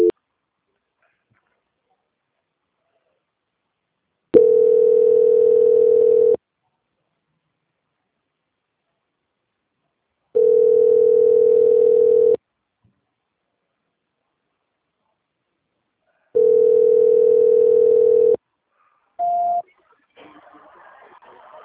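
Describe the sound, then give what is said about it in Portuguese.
Telephone tones during a call transfer: three identical steady ringing tones, each about two seconds long and separated by long silences, then one brief higher beep and a faint burst of line noise. “Eu só estou tentando transferir a ligação, tá bom? Ok, obrigado. Transferência.”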